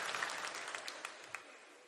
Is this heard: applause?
yes